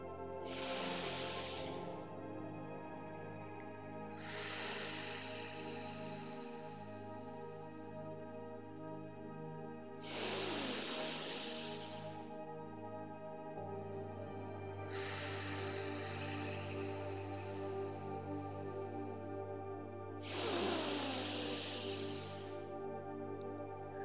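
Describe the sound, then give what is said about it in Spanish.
Deep breathing during a guided breathing exercise: five long, airy inhales spaced about five seconds apart, each a soft rushing hiss that swells and fades over a steady sustained tonal drone. “Vamos a hacer tres respiraciones profundas.”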